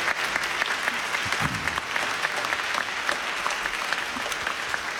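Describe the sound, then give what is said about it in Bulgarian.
A concert audience applauds with dense, continuous clapping. The clapping stays at an even, lively level throughout, with no voices standing out. “Искам да го поздравим всички и да го аплодираме.”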